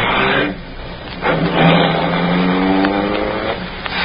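A car engine roars as the vehicle drives off and accelerates, a loud droning rumble whose pitch climbs steadily over several seconds, with no talking.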